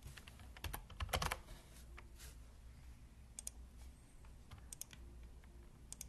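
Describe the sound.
Someone types a file name on a computer keyboard: quiet, irregular key clicks with a denser burst of keystrokes early on, then scattered taps and pauses.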